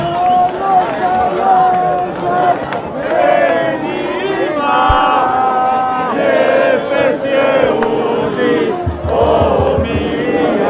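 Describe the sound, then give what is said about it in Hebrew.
A crowd shouts slogans at Haaretz journalists: loud, dense overlapping voices chanting continuously throughout, with a brief low thumping near the end. “אם תקשיבו טוב, תוכלו לשמוע את הקריאות אל תדברו עם גבל שהופנו נגדנו”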